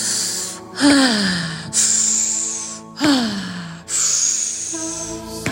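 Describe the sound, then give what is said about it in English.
Forceful exhales through the mouth during a breathing exercise with fists pounding the centre of the chest: two voiced, sighing breaths out whose pitch drops, among long rushing breaths. “Each hand gets a fist. You're going to breathe in through an O-shaped mouth. And exhale, you're going to pound the center of your chest.”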